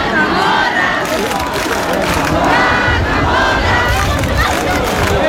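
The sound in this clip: Loud crowd shouting and cheering from thousands of people at the traditional Cascamorras festival in Baza, Spain. A dense, continuous roar of voices holds steady throughout, with overlapping yells and no single voice standing out.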